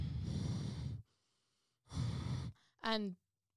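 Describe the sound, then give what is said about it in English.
A voice imitates a cat breathing heavily out through its nostrils: two long, loud, hissing exhalations separated by a pause, then a short voiced, grunting sound. “apparently she keeps on breathing really heavily out of her nostrils”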